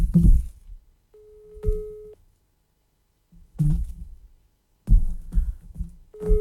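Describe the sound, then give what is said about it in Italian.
A telephone busy signal: a steady mid-pitched tone holds for about a second, then starts again at the end, between louder bursts of low, muffled noise. “A me sembrava che era linea occupata, faceva riprova.”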